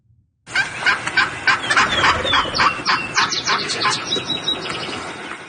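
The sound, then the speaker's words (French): A female wild turkey yelps in a rapid, rhythmic series of many raspy, nasal calls. The calls are loud and continue without pause, with no voices over them. “C'est un dindon sauvage. Femelle, oui.”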